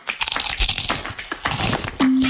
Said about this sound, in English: That chip turned into a crack?